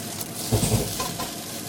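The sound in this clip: Cooked rice is stir-fried in a pan with the grains being separated, giving a steady hiss of sizzling with a few soft stirring scrapes in the middle.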